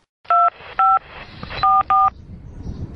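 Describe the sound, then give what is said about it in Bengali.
Telephone keypad dialing tones as someone calls home: four loud, short dual-tone beeps in an uneven rhythm, the last two close together, over a faint background hiss. “কি করবে বুঝতে না পেরে ফোনটা করেই ফেললো বাড়িতে।”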